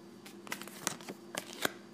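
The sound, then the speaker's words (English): Tarot card pulled from a deck and laid face down beside other cards: a few faint papery slides and soft, crisp snaps in quick succession, quiet and with no voices. “pull a card and then just place it face down next to one of our subject cards”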